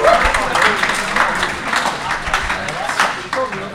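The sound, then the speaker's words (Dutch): Audience applause for the presenters at an event in a church: a dense, steady clatter of many hands, with a voice speaking over it. “Ja, maar, een welverdiend eh, applaus voor de eh, presentatoren. En voor uzelf.”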